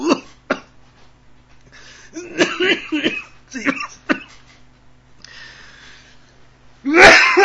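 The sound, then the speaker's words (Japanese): A coughing fit from a person choking just as they begin to speak. Many harsh coughs come in uneven bursts, some in quick clusters, with breathy gaps between them and a final loud burst, all over a low steady hum. “話し始めようと思ったらむせてしまいました。”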